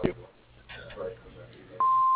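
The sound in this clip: A business answering machine's recording beep sounds after its voicemail greeting: after a brief stretch of quieter sound with speech, a loud, steady single-pitched tone starts and holds unbroken to the end.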